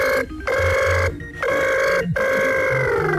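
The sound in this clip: A telephone rings loudly as a listener calls in to a radio phone-in. The ringing repeats in a few sustained bursts, each cut by a short break, with no voices.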